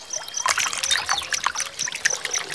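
Water trickling from a fountain, with an animal cooling its paws in it: a continuous, bright, irregular patter of drips and small splashes, fairly loud and with no voices.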